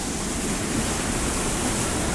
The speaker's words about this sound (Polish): Co tak szumi? Woda. To jest woda pod nami.